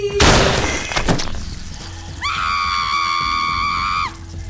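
A gunshot rings out as a loud, sharp blast, and a second crack follows about a second later. A sustained, high-pitched wailing cry then holds for a couple of seconds before cutting off.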